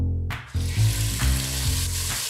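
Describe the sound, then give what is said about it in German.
Finely diced lamb hearts sear in clarified butter with a loud, dense sizzle that starts abruptly after a brief quieter moment. Soft bumps of stirring run under the steady hiss. “Die fein gewürfelten Lammherzen werden in Butterschmalz angebraten.”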